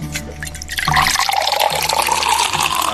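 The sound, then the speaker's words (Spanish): Wine pours from a freshly opened bottle, a steady liquid splash and gurgle that starts softly and swells into a continuous stream lasting about two seconds, with no voices. “Abriendo el vino, que respire, que el vino tiene que respirar.”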